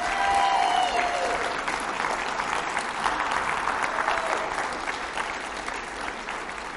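An audience applauds to welcome guests onto a stage: steady, dense clapping from a crowd that starts loud and eases off slightly toward the end.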